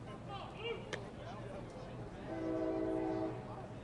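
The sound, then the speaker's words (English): A distant freight train's horn sounds once during a baseball game in Bradenton, near a Tropicana facility. The steady blast lasts about a second and is faint beneath ongoing talk. “Train in the distance, likely hauling some goods away from the Tropicana facility.”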